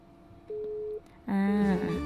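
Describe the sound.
A telephone line drops during a phone-in call, leaving a single steady mid-pitched tone of about half a second, followed by a voice.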